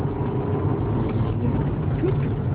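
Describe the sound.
A car drives along with a steady, low engine rumble and road hum. The drone is continuous and even, with no distinct events.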